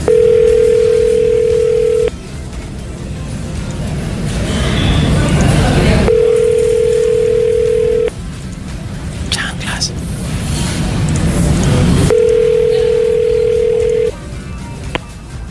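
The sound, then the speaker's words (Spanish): A telephone ringback tone sounds during a repeated call attempt: three steady mid-pitched beeps of about two seconds each, separated by roughly four-second gaps filled with loud hissing line noise. “Todavía no, aguanta, ve pensando, voy a marcar una vez más. Intentemos una vez más.”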